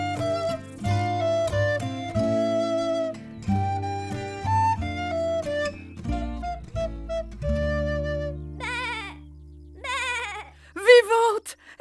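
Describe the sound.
A black sheep, stuck in a crevasse, bleats in loud, wavering cries that come in a quick run and are strongest near the end, after a stretch of sustained, steady tones.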